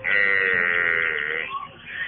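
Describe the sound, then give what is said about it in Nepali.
A water buffalo calf, following its mother as it is led home, calls with one long, sustained nasal bleat, then a fainter, shorter cry. “ए पख न हो पख, कति कराएको यो भैँसीको पहाडी, आमाको पछि पछि आइजो न”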